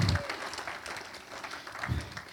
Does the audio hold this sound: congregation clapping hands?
yes